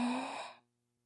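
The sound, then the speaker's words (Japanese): A single deep breath drawn in, an airy rush of breath that stays strong for about half a second, then fades quickly into silence. “深呼吸してみて。息を吸って、”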